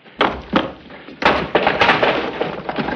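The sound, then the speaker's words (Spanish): Heavy thuds and knocks come from a man struggling to force open a locked door. Two separate thumps are followed by a dense, continuing run of rattling bangs. “El hombre forcejea ante la puerta.”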